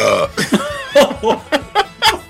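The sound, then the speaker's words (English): A string of short, loud, throaty belches, voiced and gurgling, coming in quick rhythmic succession with brief gaps between each burp. “You're having an emergency. Belching emergency.”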